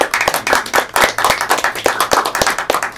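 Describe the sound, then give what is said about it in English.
A round of applause at a formal meeting: loud, sharp claps from a fairly small group, with many distinct slaps arriving in quick, uneven succession for about three seconds. “So, round of applause.”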